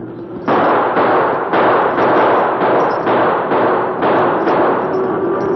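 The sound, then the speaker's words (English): Gunfire in a western radio drama as shots go over a stampeding cattle herd: many harsh, noisy blasts in rapid, closely spaced succession, loud and continuous throughout, with no talking. “Keep shooting, Tonto.”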